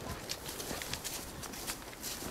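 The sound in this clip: Clip-clop of horse hooves as horses are ridden at a walk up a slope, with many soft hoof falls in a fairly even rhythm and no voices.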